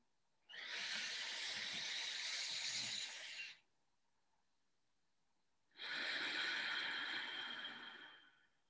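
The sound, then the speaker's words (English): Two long, airy exhales through the nose are part of a breathing exercise. Each is a soft, even rush of breath lasting around three seconds, with a quiet pause between them. “So again, the exhale is always through the nose.”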